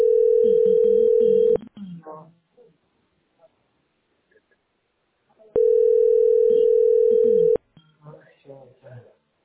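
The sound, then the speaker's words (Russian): Telephone dial tone on an office line while an internal extension is being dialed: a steady mid-pitched tone sounds twice, each stretch about two seconds long and cut off abruptly, followed by short bursts of talk. “Набираю. Набери 10-01. Боря, я набираю.”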